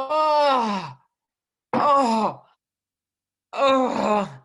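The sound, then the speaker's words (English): A voice imitates 14- and 15-year-old kids groaning as they stretch with flat backs to touch their shins: three long, loud groans, each sliding downward in pitch, separated by silence. “And I said to him, I'm like, what are you guys groaning about? You are 14 and 15 year old kids, and you sound like a bunch of decrepit old people.”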